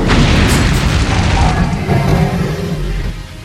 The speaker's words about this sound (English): Let's see how the squid likes a little fire breath!